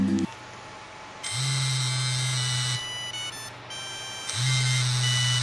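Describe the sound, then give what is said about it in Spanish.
A vibrating device buzzes against a phone whose microphone is covered. Two sustained low buzzes, each lasting about a second and a half, are separated by a pause and sit over a constant electrical hum. “Vamos a mostrar cuál es el efecto vibrador del que hablábamos tapando el microfonito del celular.”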